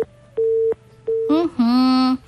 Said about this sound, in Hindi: phone line T कटि जाइछि